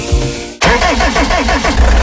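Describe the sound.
An old car engine starts: after a brief lead-in it fires with a sudden loud burst about half a second in, then runs on in a rough, throbbing rumble that stays loud.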